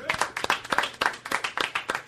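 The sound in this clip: Audience applause for a guest, with many hand claps falling in a steady, even rhythm at moderate volume throughout.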